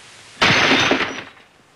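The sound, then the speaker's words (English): A drinking glass thrown at a fireplace shatters in one sudden, loud crash of breaking glass. The bright, noisy burst fades over about a second and is heard alone. “He tosses his glass at the fireplace.”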